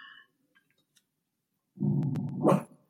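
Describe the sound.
A pet dog lets out one loud, sustained burst of barking and growling that lasts about a second, with a louder peak near its end and near-silence before it.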